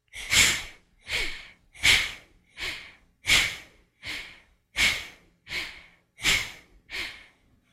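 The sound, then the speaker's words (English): Forceful breaths through the right nostril, with the left one closed, in a yoga breathing exercise. Ten sharp, rushing breaths come in a steady rhythm about one every 0.7 seconds, alternating stronger and softer. “Closing the left nostril. And strong exhale, inhale five times, right side.”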